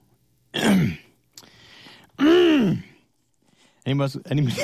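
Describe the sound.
Phlegmy throat clearing rasps in a few harsh, guttural bursts separated by short pauses, loud and close with no spoken words.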